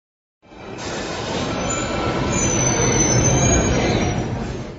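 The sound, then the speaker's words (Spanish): A metro train arriving at a station: a steady, loud rumbling roar with a high-pitched squeal of wheels on rails running throughout. “Parada Metro Xelotzingo.”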